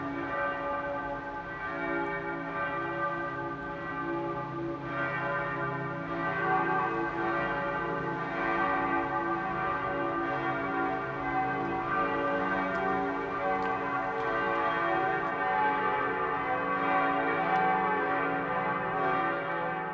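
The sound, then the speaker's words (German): Noon bells ringing at the Lutheran Christuskirche in Landshut, Lower Bavaria. Several bells peal together in a steady, unbroken wash of overlapping metallic tones that hum and shimmer at a constant loud level throughout. “Das Mittagsläuten kommt heute von der evangelisch-lutherischen Christuskirche im niederbayerischen”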